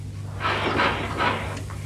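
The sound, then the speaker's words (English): A cupboard door closes after an object is put away inside: soft, muffled rubbing and knocking sounds over a low, steady hum. “Now, into the cupboard.”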